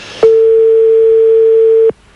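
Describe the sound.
A telephone rings out on a call that goes unanswered late at night. A single steady, mid-pitched electronic tone holds for under two seconds, loud and clean, then cuts off.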